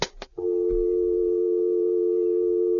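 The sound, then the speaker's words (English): A telephone dial tone hums at one steady, unchanging pitch after a short burst of clicks at the start, with no voices. “Let's dial her up here.”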